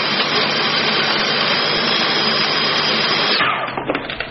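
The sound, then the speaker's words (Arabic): A 500-watt kitchen chopper motor whirring as it chops meat, a loud, steady roaring whine that cuts out near the end, followed by a few light rattles. “الأصلية موتورها 500 واط ووعائها ضد الكسر، ولا تباع إلا من شاشة رويال انترناشونال، واحذروا التقليد. عملنا هذه التجربة برأس موتور واحد وخمس وظائف في نفس الوقت: اللحمة،”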